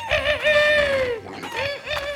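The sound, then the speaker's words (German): A voice imitates a rooster perched on a well crowing: a long, drawn-out call that falls slightly in pitch, followed by a shorter second call. “der Hahn auf dem Brunnen, als er es sah, rief,”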